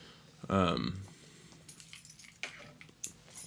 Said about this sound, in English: taking my keys off